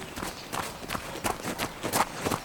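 Running footsteps pound as a little girl and her father race each other. Many quick, soft thuds follow in a fast, fairly even rhythm throughout, with no voices.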